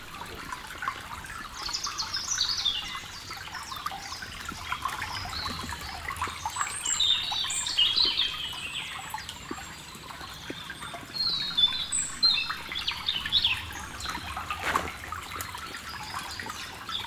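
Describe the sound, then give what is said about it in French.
A small stream flows beneath the vault of a small bridge in the Pyrenees, giving a steady, even rush and trickle of water. Bright bird chirps sound on and off over the continuous flow. “je me trouve sous la voûte d'un petit pont qui enjambe un petit ruisseau.”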